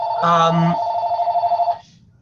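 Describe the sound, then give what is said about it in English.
A telephone rings once, a loud electronic tone with a rapid warbling trill that lasts under two seconds and then stops. “hold on a second. Someone's got to pick up the phone.”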